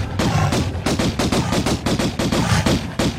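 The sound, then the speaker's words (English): Rapid video game gunfire from a retro action-adventure game as the character shoots at a bear: many loud, sharp shots in a dense, fast rhythm that runs without a break. “That's Lara Croft shooting a bear.”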